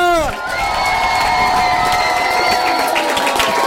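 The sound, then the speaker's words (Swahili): Crowd cheering and clapping at a celebration event, a loud, dense and continuous roar of shouts and applause that holds steady throughout. “Wapi makofi ya Wasta?”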